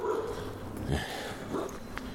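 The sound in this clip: A dog barks and yips a few times, the short calls faint over a low, steady background.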